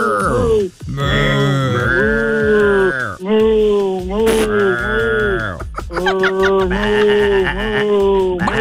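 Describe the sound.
A human voice imitates a cow mooing, stretching out a string of long, low, drawn-out moos one after another with brief breaks between them, loud and continuous throughout.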